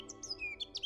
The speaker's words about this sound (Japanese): 大自然の中に身を置くと鳥の鳴き声が聞こえてきませんか。